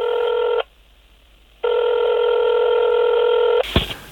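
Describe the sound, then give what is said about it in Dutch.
Telephone line tones on a call to a debt collection agency: a short steady tone, a silent gap, then a longer tone, ending in a sharp click as the line connects. “Onze verslaggever Gidi Pols belt met FE Collect over zijn achterstallige betaling. We spelen het gesprek na.”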